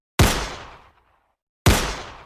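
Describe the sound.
Two sharp gunshots from a 9mm handgun, spaced about a second and a half apart. Each is a loud, sudden bang followed by a quickly fading tail.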